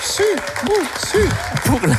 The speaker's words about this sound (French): On peut encore les applaudir puisque nous sommes en public ce matin.